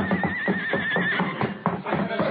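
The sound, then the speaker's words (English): A horse whinnies, its high, wavering neigh rising out of the mix in the first half, while voices and other commotion carry on around it. “Look out, that horse!”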